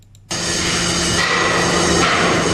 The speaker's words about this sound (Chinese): 国庆期间，国家重点工程安庆至九江的安九高铁正在紧张建设中，在庐山站施工现场，1000多名工程人员奋战在工程一线。